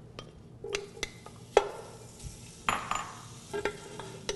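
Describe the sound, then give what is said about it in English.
Bacon sizzles with a couple tablespoons of olive oil in a pot, rendering fat for a smoky tomato and cannellini bean soup base, a soft steady sizzle under several clinks and scrapes of stirring. “I'm going to cook down my bacon with a couple tablespoons of olive oil to render out the fat and develop a nice base flavor.”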